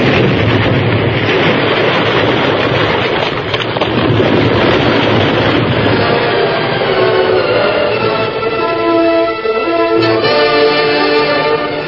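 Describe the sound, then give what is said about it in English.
Explosion sound effect in a radio drama, a loud roaring blast that rolls into a long, sustained rumble filling the whole clip without easing off. “A blast! Face down, hug the ground, shield the girl!”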